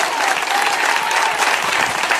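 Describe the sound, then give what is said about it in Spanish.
Congregation applauding during a church service as praise to Christ: a dense, steady wash of many hands clapping, even in loudness throughout with no breaks. “¿Cuántos alaban al Cristo de la gloria? Denle ese aplauso al Señor.”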